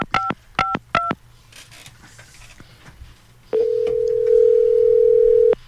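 A telephone number is dialed on a touch-tone keypad: three quick, crisp dialing beeps, a short quiet pause, then a single long steady tone held for about two seconds.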